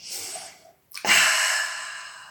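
A deep breath drawn in during a guided yoga relaxation. A softer airy breath is followed by a brief silence, then a louder, sustained rush of inhaled air that slowly eases off.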